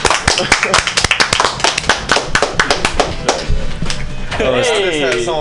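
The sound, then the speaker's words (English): A small group claps in quick, sharp, irregular strikes, loud and close, and near the end a wavering, warbling whoop of cheering rises over the clapping. “Let's make some noise for acknowledging that homework sucks hella ass.”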